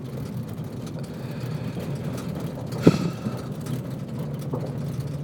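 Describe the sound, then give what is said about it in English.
A vehicle drives down a rumbly gravel road in a mountain bike park: a steady, low, continuous rumble of tires and engine with one brief, sharper jolt partway through. No voices are heard. “Okay, we're driving down the gravel road. There's your cattle guard. We're here in the mountain bike park. It's a little rumbly.”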